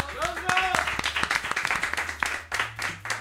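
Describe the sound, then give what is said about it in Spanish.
Applause during the announcement of final standings in a season-ending contest: a fairly quiet run of many sharp, evenly spaced claps, with a voice audible at the start. “Un aplauso.”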